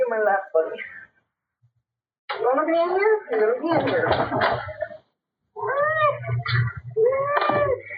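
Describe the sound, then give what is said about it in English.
A cat meows loudly and repeatedly in three bursts of strained, wavering cries, with a steady low hum beneath the last two bursts. “That cat is definitely vocal.”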